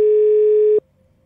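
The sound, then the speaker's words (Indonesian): A steady telephone dial tone plays while a call is being placed. It is a loud, even, mid-pitched hum with bright overtones that holds for just under a second, then cuts off abruptly, leaving only a faint trace. “Ya udah kita telepon Karisa dulu lah untuk dia menceritakan.”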